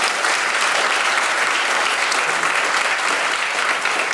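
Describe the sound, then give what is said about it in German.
An audience at a live show applauds with dense, steady clapping that stays loud and continuous from start to finish without breaks. “Wer kann mal klatschen, wer es gut fand bisher?”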